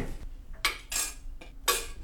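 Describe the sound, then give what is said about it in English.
A metal lid is set onto a cooking pot of dal, giving a few sharp clanks and rattles in quick succession, fairly quiet with brief pauses between the hits. “So we're gonna just put the lid on so that it can boil.”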